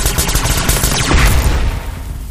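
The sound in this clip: A dense burst of gunfire is unloaded onto a humming, signal-sending box, a loud, rapid barrage of shots that keeps up for about two seconds and then cuts off.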